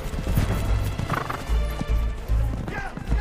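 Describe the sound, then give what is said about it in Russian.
Galloping horses in a cavalry chase, a dense, loud drumming of hooves with a horse whinnying partway through, continuous over the whole stretch. “Наконец, придержав коня, оглядывается. Последние двое из ее отряда скачут обратно к своим.”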